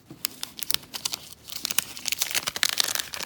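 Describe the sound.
Crinkling and tearing wrapper of an Upper Deck wax pack of baseball cards being ripped open: many small crackles, quieter at first, then louder and busier, with no talk.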